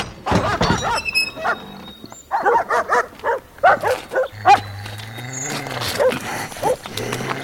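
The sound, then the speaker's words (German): Dogs barking in many sharp, loud barks that come in an irregular, rapid series, with brief gaps between clusters and a low rumbling tone underneath part of the run. “Was machen Sie mit meinen Hunden? Sie vergiften sie! In Wirklichkeit füttere ich sie nur mit rohen Nieren”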